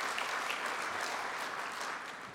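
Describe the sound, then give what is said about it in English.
Warm applause for the banner carriers at a ceremony: dense, sustained clapping from an audience that stays steady and thins slightly toward the end. “Let us give a very warm round of applause to the banner carriers, the banner bearers.”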